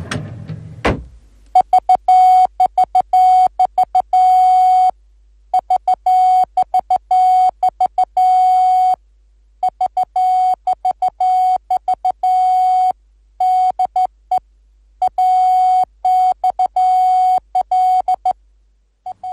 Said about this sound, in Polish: AXL w alfabecie Morsa, sygnał wywoławczy transatlantyckiej centrali radiotelegraficznej w Babicach koło Warszawy.